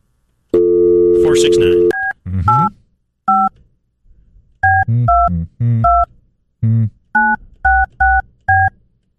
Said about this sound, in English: So, let's give it a call. Okay. Ring it up. Let's see. I got dialed quick enough.